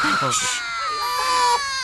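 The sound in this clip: A newborn baby cries just after birth: a continuous, high, wailing cry that holds a steady tone for the whole stretch, with adult voices briefly underneath at the start.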